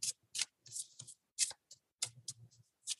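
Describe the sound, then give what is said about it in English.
Cards from an elements oracle deck with crows on the back are shuffled and drawn, making several quick, crisp papery bursts and flicks with short gaps between them. “It's an elements deck. And since I invited the elements in when I opened your circle, I feel that it's only right to end the circle with pulling from their deck.”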